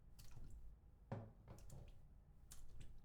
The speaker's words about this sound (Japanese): では、体を洗っていきますので、右足からこちらにいただけますか？